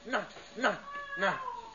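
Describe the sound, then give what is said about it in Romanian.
An escaped cat meows three times, each a short harmonic call that arches up and then down in pitch, with the third call drawn out a little longer. “Ți-a scăpat pisica. Pune mâna pe ea! Pune mâna pe ea!”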